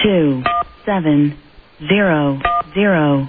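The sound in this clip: Touch-tone telephone dialing beeps, two short steady tone bursts set among a voice that keeps talking, while someone tries to dial through to a number.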